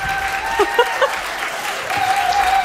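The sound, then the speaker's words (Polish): Applause for a band at the close of a live concert performance: dense, steady clapping throughout, with a few brief tonal sounds rising above it. “Wielkie brawa”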